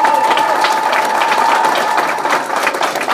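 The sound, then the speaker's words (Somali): Applause from a Somali gathering. Rapid, dense clapping continues throughout, and a faint steady tone runs beneath it for the first half. “waxaan leeyahay mar labaad iyo mar saddexaad cod dheer iyo sacab dheer ugu muujiya insha allah arrintaas”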